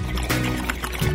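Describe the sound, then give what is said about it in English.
Bubbling gurgle of water in a bong used without a silencer: a brief, fairly loud burst of continuous churning bubbles. “First, without bong silencer, you get this.”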